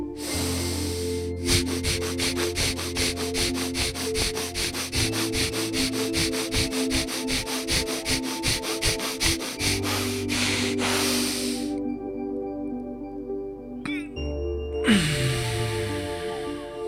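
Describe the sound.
Rapid breathing exercise during a guided meditation: many quick, even inhales and exhales pulse in a fast steady rhythm over a sustained tonal background, then stop before a brief final burst of breath.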